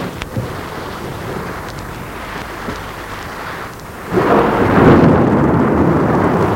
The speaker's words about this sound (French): Dehors, l'orage fait rage.